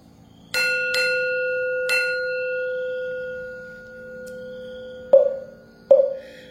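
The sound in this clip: A Buddhist temple bell rings for a bell chant, struck several times with long sustained metallic ringing. The later strikes land sharper and lower in pitch, each followed by a fading hum.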